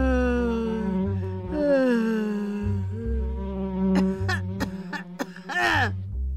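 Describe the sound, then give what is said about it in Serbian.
Buzzing of a fly in a room, a wavering, shifting drone that rises and dips, set over a low, pulsing rhythmic background. “Muva je iznenađeno zujala.”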